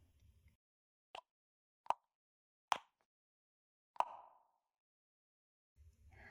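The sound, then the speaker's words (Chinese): An ear-cleaning tool box is opened with four crisp, separate clicks spaced unevenly in near silence. The last click rings out slightly longer, and a faint rustle sits at the start and end. “打开掏耳的工具盒”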